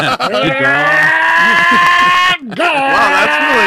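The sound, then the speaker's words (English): A human voice imitating the engine of a GT3 sports car: a loud, buzzy, sustained tone with wavering, swooping pitch, broken by one brief pause before the roaring imitation resumes. “You got a GT3 voice now.”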